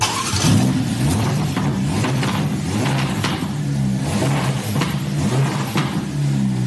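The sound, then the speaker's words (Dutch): Engine of a Ferrari Roma sports car revving: a loud, deep mechanical roar that swells and eases over and over, with no voices. “Een beetje een alledaagse Ferrari. Luisteren naar die Roma?”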